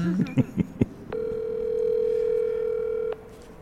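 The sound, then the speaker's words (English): A telephone call placed with speed dial: a quick run of short dialing beeps, then a steady tone holding for about two seconds before it cuts off. “And I hit speed dial, y'all.”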